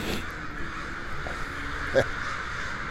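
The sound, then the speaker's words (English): Crows caw harshly while roosting around an apartment building, their scattered calls rising over a steady background hiss, with one louder call standing out near the end. “The crows decided to roost around my apartment building last night. When I stepped out of my apartment building, I was met by the raucous cries of the Corvid Congress.”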